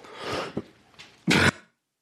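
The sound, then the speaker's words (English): Throat clearing and a cough from someone with a lingering tickle in the throat during a Sunday church service. A rough, drawn-out clearing and a couple of small catches come first, then one loud, short cough burst, with no talk. “promise to turn my mic off when I cough this Sunday. I'll do my best.”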